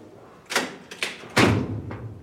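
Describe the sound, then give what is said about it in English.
A door in a hallway gives four dull thuds and bangs, spaced unevenly over about two seconds. The third is the loudest, with a low rumble after it. “Please open the door so I can talk to you.”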